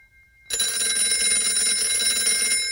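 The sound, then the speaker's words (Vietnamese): A telephone rings insistently with a loud, continuous, buzzing electronic tone that starts abruptly and holds steady without any pause. “Chuông điện thoại đổ dồn dập.”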